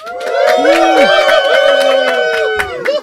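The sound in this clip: Crowd cheering and applause played from a soundboard as a sound effect: a continuous swell of shouting, whooping voices with scattered claps, sustained at an even level throughout.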